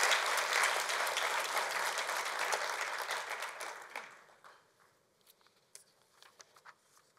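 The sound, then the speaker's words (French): Audience applause at a gathering, loud and dense for about four seconds, then thinning quickly to a few scattered claps before fading out. “Combien? Par applaudissement.”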